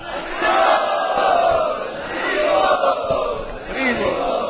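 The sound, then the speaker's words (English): A crowd chants loudly together to welcome a guest speaker, a dense, steady wash of many voices that swells and eases over the whole stretch. “We would like to welcome him by loudly chanting.”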